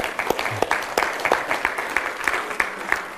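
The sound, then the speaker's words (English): Audience applause for children's and youth camp workers and campers. A steady patter of many hands clapping holds a fairly even level, with sharp individual claps standing out from the wash. “A huge round of applause to”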